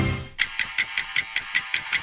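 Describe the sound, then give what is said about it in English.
A clock ticks in a radio advert for a car dealership group's year-end clearance countdown: nine crisp, evenly spaced ticks in a steady rhythm, following a short low hum at the start. “The clock is ticking. The countdown is underway.”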